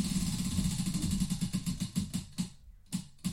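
A prize wheel spins, its pointer ticking in a rapid rhythmic run of clicks that gradually spread apart and slow toward the end, alone without talk.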